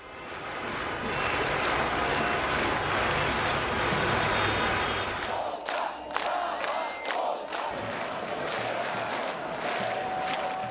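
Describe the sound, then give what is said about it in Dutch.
A large crowd protesting in the streets after the 2020 presidential election in Belarus, against the ruling regime, roars with a dense, steady mass of voices, then a series of sharp bursts breaks through over the continuing crowd noise. “Want na de presidentsverkiezing in 2020 gingen veel mensen de straat op om te protesteren tegen Lukashenko's bewind. Nooit eerder lieten zoveel Belarussen van zich horen, dat klonk zo.”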